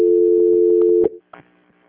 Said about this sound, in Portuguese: Ah, só mais um momentinho, né? Eu vou transferir de novo. Transferência.